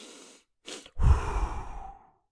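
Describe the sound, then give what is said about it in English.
Breathing exercise: two inhales, the first a little longer than the second and separated by a brief pause, followed by a single extended, breathy exhale that tapers off, with no talking. “An inhale. The first inhale is a little bit longer than the second. And then the exhale is extended.”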